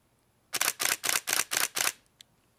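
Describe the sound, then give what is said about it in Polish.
Camera shutter of an advanced Canon fitted with a Zenit lens firing six rapid clicks in an even burst, followed by one faint, single click. “Wezmę znowu Canona, już taki bardziej zaawansowany. Tutaj mam właśnie założony obiektyw od Zenita i ten brzmi tak.”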